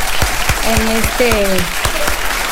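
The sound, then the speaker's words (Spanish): Loud, steady audience applause welcomes an Ecuadorian saxophonist as he prepares to perform, while a voice talks over the clapping. “Le vamos a recibir con un aplauso de esos sonoros”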